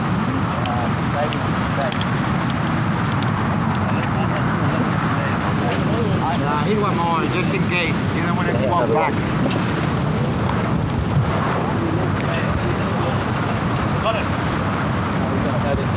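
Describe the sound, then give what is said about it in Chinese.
Strong gusting wind buffets the microphone at an outdoor golf tournament, a constant loud rushing roar that runs throughout, with a commentator's voice underneath it. “今天的这个现场的狂风对于球员们来说是极度的不友好。”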